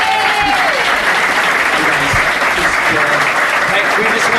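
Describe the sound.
An audience applauds a pastor after his talk, with dense, loud clapping sustained throughout and cheering voices mixed in.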